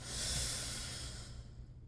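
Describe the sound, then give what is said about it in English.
A deep breath drawn in through the nose during a guided relaxation exercise, a soft, airy hiss that swells quickly, holds for under two seconds and then thins out. “And we'll start just taking in a nice deep breath, deep down into the belly.”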